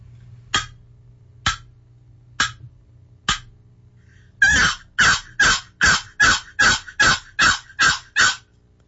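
A box turkey call imitates a hen's plain yelp: four single raspy notes spaced well apart, then a quicker, louder run of many yelps in an even rhythm, with no other sound between.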